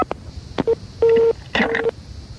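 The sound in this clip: Telephone DTMF tones sound as a number is dialled: three keypad beeps, one short and then two longer ones, preceded by a few sharp clicks, with no voices.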